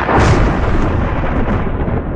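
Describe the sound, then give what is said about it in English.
Thunder from lightning rolls as a loud, deep, broad rumble. It stays strong and sustained from start to finish, with no voices over it. “The odds of being struck by lightning are less than 1 in 1 million. But when you hear this sound,”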